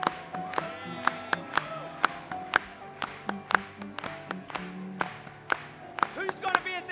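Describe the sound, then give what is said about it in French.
Rhythmic hand clapping at a French-language religious gathering, crisp claps landing on a steady beat throughout, with voices murmuring and calling out underneath. “Le Fils de Dieu lui-même sera en tête à cette rencontre dans le zèle. Acclamez pour lui.”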